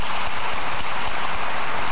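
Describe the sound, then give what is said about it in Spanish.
An audience at a church sermon gives a loud, dense round of applause. Countless hand claps blur into a continuous crackling wash that holds steady throughout, with no voices over it. “Denle un aplauso a papá Dios.”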